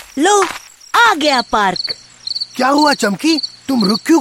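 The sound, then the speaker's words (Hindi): Crickets chirp in a park, sending out regular, high, pulsing trills that carry between the cartoon voices. Several animated characters talk over the chirping. “ये तो झिंगूर की आवाज है, ध्यान से सुनो, तुम्हें ऐसा लगेगा जैसे तुम कोई संगीत सुन रहे हो।”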